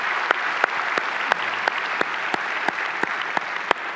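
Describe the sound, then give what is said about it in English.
Church audience applauding to welcome guests, steady and full, with a handful of sharper individual claps popping out above the mass of clapping at irregular moments. “If you're a guest, we'd like you to join us by applause.”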